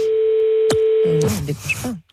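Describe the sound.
A telephone sounds a steady, unbroken tone while a call is being dialed, with a brief click partway through, then the tone stops and short bursts of voices follow.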